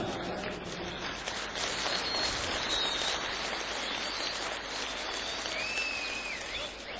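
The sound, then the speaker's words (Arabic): Applause and whistling from a large audience at a Salafi religious mass rally in Abu al-Matamir: a continuous, hissing wash of clapping, with a few shrill whistles cutting through, one near the middle and one toward the end. “هو طبعا ليس من هدينا التصفير ولا التصفيق، ولكن يعني نعديها زي ما بيقولوا يعني بسبب الحب العظيم لحب الشيخ حازم في قلوب الناس جميعا.”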